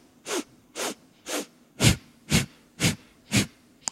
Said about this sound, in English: It's a segmented breath. And it's four parts inhale through the nose and four parts exhale through the nose. So it sounds like this.